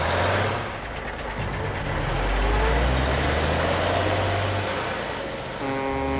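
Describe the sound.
A cartoon race car's engine rumbles steadily as it drives through city streets toward a canal, a continuous low drone that swells slightly in the middle before easing off.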